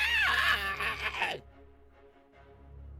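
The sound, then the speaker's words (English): A human voice imitates the screech of a huge insectoid creature with a thick exoskeleton and a four-part mandible mouth: one strained, rasping cry that slides downward in pitch and cuts off after about a second and a half, leaving quiet. “and screeches at you. That was horrific.”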